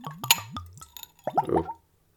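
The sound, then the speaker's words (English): Everclear spirit glugs out of the bottle into a Glencairn glass for a tiny pour, with a few hollow gurgling plops followed by a denser, splashier burst of liquid that fades out. “Little wee Glencairn. Let's give it a tiny pour.”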